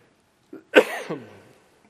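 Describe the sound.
A single short cough from a preacher during a church sermon. It is a brief, fairly faint burst, with no talk around it.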